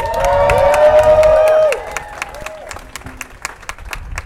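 Crowd at a rally for victims of state-sanctioned violence cheering and shouting loudly, with whoops at first, then fading into scattered clapping and murmurs.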